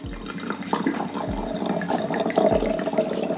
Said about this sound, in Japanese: じゃあ注いでいきましょう